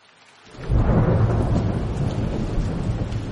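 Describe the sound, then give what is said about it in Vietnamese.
Heavy rain swells from near silence into a loud, dense, steady roar within the first second, with a deep low rumble beneath the hiss that holds strong to the end. “Mưa càng lúc càng lớn.”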